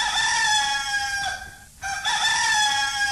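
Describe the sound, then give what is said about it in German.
A rooster crows at dawn, a loud, strained, harmonic call held for over a second. After a short break comes a second long crow that carries on to the end. “Was ist denn das? Das war der erste Hahnenschrei.”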